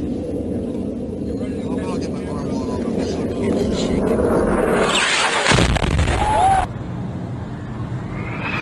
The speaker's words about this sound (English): this is a U.S. JDAM. Bombs out. Bombs away.